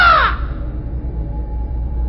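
A raven's croak used as a sound effect in a dramatized horror reading: one short, harsh caw that falls in pitch and fades quickly, leaving a low, steady rumble behind it.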